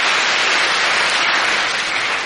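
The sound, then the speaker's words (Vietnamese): Dense, steady audience applause, loud and continuous from start to finish with no pauses. “Quá giỏi, cho một tràng pháo tay thật lớn.”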